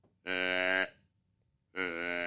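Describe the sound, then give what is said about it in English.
A voice imitates a doe or fawn deer bleat with two drawn-out, nasal, moo-like calls at a steady pitch, separated by a pause. The second call runs to the end. “So a bleat is a doe. To me, it's a doe bleat. So it's either a doe or a fawn, and again, you're just getting higher in pitch. So for me, like a simple doe bleat is like this.”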